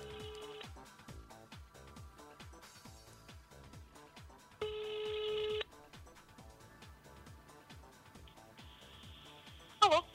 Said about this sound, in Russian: О, звоночек пошел.